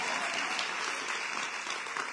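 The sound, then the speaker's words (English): An audience applauds at a speech in Chicago with dense, even clapping that holds steady and loud throughout without a pause. “Y'all clap for that.”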